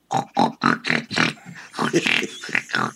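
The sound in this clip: A human voice imitates a small pig's oinks with a rapid series of short, throaty grunting oinks in an uneven rhythm.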